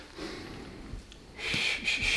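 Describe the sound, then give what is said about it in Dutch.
Faint sniffing inhale through the nose during a rest break in a workout, a short, quiet breath. “Adem in door je neus.”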